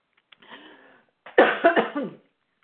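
Coughing and throat clearing from a person with something caught in the throat: a soft, breathy hum, then a burst of a few harsh, rasping coughs heard alone.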